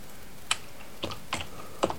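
Computer clicks: four sharp, separate key or mouse taps spaced unevenly across two seconds, quiet against a steady low hiss, with no talk.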